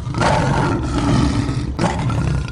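A lion roars loudly in a deep, rumbling, sustained roar that dips briefly and then surges again.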